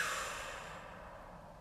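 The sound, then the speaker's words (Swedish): A slow, deep breath taken during a breathing exercise, heard as a soft, airy rush of air that starts fairly full and gradually fades away, quiet and alone. “Avsluta övningen med att dra ett djupare andetag in genom näsan och ut.”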